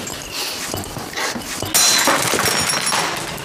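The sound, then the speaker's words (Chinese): Objects are smashed and thrown during a domestic fight: a few scattered thumps, then one loud shattering crash partway through, followed by clinking debris. “你敢砸东西啊？还学会摔东西了？”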